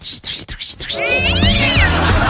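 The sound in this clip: A cat gives one long, drawn-out meow that rises and then falls in pitch, loud and following a moment of talking at the start.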